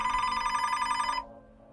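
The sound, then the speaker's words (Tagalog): A telephone rings on a call from a boss, heard on the way home at night: a steady, bright electronic ring with a buzzing, harmonic-rich tone that holds loud for about a second, then cuts off abruptly. No voices. “Sakto naman po na habang pauwi ako ng gabing yon, tumawag sa akin si Ma'am Rebecca ang toksikong boss.”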